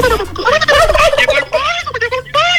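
Turkey gobbling, loud rapid warbling bursts with a wavering pitch that run almost unbroken at first, then break into shorter choppy bursts separated by brief gaps.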